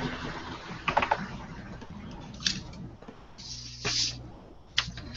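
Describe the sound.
Typing on a computer keyboard: scattered, fairly faint keystroke clicks arriving in a few short clusters with gaps between them, and no talk over them.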